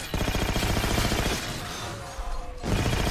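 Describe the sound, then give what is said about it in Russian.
Grenades explode in a video game: loud, dense blasts with a rattling, crackling texture that briefly thin out, then a fresh heavy burst near the end. “Это гранаты. Ой, ой! Меня еще и взорвало, прикольно.”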